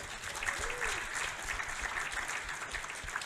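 Audience applause welcoming a singer at a family concert, a full, even roar of clapping that holds steady from start to finish.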